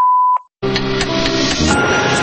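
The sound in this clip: A single steady mid-pitched electronic beep lasting under half a second, followed by a brief silence and then music starting abruptly at full loudness.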